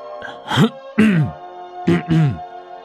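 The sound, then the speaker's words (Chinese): A voice acts out a man clearing his throat: four short, rough voiced grunts in two pairs separated by a brief pause, the first pair slightly softer than the second. “秦放清了清嗓子。”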